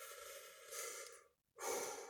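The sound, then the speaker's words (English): Heavy breathing after a long rant: loud, breathy huffs that trail off into a brief silence before another strong breath follows, with no talk. “Whew. I have to breathe.”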